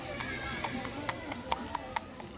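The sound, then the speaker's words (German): A two-wheeled horse-drawn cart clatters over cobblestones, its hooves knocking in sharp, fairly regular beats above a steady rattling wash of wheels and street noise. “Auf dem Kopfsteinpflaster klappert ein zweirädriger Pferdewagen.”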